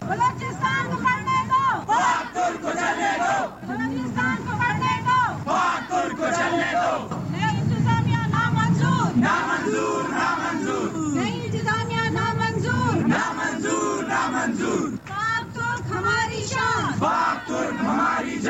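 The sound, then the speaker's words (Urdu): Protesting students and some of their parents chant slogans outside a press club in Quetta. Loud massed voices keep up a rhythmic call-and-response over constant crowd noise, with brief dips between phrases. “مظاہرہ شرکا نے اس موقع پر یہ نعرے لگائے۔”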